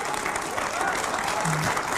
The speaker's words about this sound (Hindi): ताली बजा रहे बच्चे